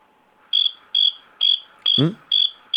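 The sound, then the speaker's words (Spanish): Cricket chirping in a steady rhythm of short, high buzzing pulses, about six in under three seconds, with a brief low sweeping noise under one chirp. “El grillo me ha cortado.”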